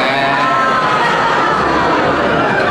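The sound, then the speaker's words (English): Audience booing during a word-game challenge, a loud, unbroken wash of crowd noise that holds at an even level from start to end. “There's your booing brigade are in there.”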